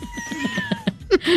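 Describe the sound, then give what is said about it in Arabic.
A cat meows repeatedly in short, high, quick calls, growing louder and longer near the end. “دي قطة”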